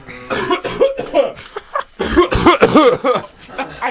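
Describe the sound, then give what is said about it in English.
A person coughs repeatedly in a run of loud, rough bursts, with throaty, voiced rasps and throat clearing between them. “Another cough. Another cough. I wanted for all of you to see how it feels for me to cough.”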